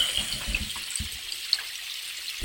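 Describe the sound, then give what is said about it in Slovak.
A small babbling brook below Rakitov, a soft, continuous trickle of water with faint bubbling and gurgling, quiet and alone with no voices. “Posielam vám ešte šum potôčika spod Rakitova.”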